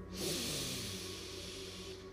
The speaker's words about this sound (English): So let's breathe in.